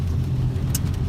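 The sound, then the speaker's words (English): New York street traffic heard while stuck behind a dump truck: a steady, low engine rumble holds evenly through the short stretch, with no voices. “Hear all of these sounds, all of these lovely sounds that you're hearing. New York. It's like ASMR. You can almost smell the city. Yuck. I'm stuck behind a dump truck too”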